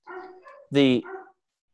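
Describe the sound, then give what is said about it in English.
A dog barking inside a house gives one loud, sharp, harmonic bark, with talking just before and after it. “The dogs are barking in my house, so I apologize if that's anyone's hearing that.”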